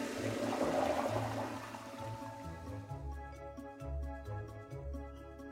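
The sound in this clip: A toilet flushes in a toilet built outside a construction workers' shed. The rushing water lasts about two seconds, then gives way to rhythmic music.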